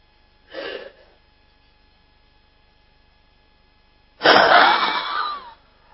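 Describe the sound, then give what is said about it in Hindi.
Forceful, rapid breaths blown out through the mouth during a breathing exercise: a short puff, then a pause, then a longer, louder rushing exhale, all over a steady low electrical hum. “और लंबा सांस लेकर के मुख के द्वारा हम सांस को जल्दी से छोड़ करके पेट को पूरा टाइट करेंगे, पूरा सांस को एक्सहेल करेंगे जल्दी से, और धीरे सांस लेंगे धीरे धीरे। देखिए मैं करके दिखाता हूं”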